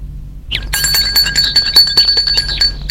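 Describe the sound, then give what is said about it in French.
Bright, high metallic ringing of a bell at the gate of a lakeside villa, a rapid continuous trill that starts after half a second of quiet and keeps going loudly to the end. “sonne au portail.”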